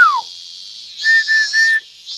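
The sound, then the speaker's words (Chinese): A familiar whistle from someone riding a bicycle: three short, steady, high-pitched notes in quick succession, clear and alone over a faint hiss. “一声熟悉的口哨”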